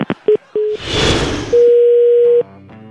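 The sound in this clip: Telephone line tones follow a dropped call: a few short beeps, a burst of hiss, then a long, steady tone before the line falls quiet.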